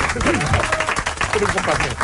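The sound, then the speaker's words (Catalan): Applause breaks out for performers after a sung garrotín, a dense, steady wash of clapping that holds at the same loudness through the whole clip, with voices mixed into it. “Un aplaudiment enorme per aquesta gent.”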